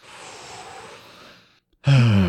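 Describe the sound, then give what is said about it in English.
A deep, slow breath sounds as a long, soft, airy rush lasting over a second. It fades to a brief silence, and then a voice begins talking. “let's wind down, let's relax, let's take a deep breath.”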